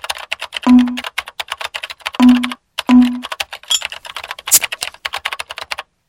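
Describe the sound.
Rapid clattering of typing on a neighbour's computer keyboard, dense bursts of sharp keystrokes broken by a few short pauses, loud and alone.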